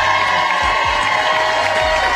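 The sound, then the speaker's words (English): An audience cheering and applauding at an evening live event, a loud, continuous roar of crowd voices and clapping that stays steady from start to finish. “Give yourselves a round of applause for being absolutely cool.”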